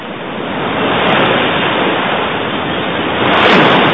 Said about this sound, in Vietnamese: Lúc này cả bọn đã tới sát bờ biển. Tiếng sóng dỗ vào bờ đá ầm ào bất tuyệt.